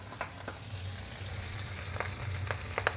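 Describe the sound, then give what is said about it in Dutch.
Freshly rinsed cauliflower leaves fry in a pan with a fairly quiet, steady sizzle, punctuated by scattered sharp crackles and pops. “Ik doe overigens nu ook mijn bloemkoolbladen in de pan bij de penkel.”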